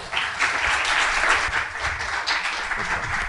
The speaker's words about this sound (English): let's put our hands together and welcome Pastor Daniel Ong